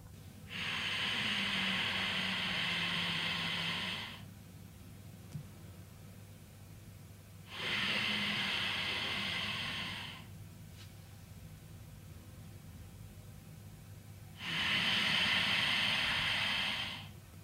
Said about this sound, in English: The sound of the breath should be gentle and smooth, no forced or violent.